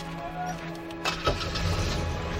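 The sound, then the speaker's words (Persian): A car engine starts as the car prepares to reverse away: a steady low hum, then a sudden burst midway, followed by a louder, rough low rumble that holds to the end. “رضا دنده عقب میگیره میره.”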